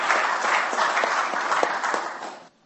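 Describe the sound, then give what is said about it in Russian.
Applause at an official ceremony honouring forestry workers: a dense, steady burst of many hands clapping that stays strong, then cuts off abruptly near the end. “и я с большим уважением к труженикам лесного хозяйства, аплодисментами мы поздравляем.”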